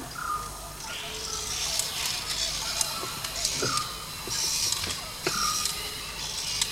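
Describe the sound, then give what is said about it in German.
Door creak sound effect from a horror radio play: a few short, squeaky creaks with clicks over a constant hiss. “Die Tür geht auf und da kommt so ein komischer Kasten raus.”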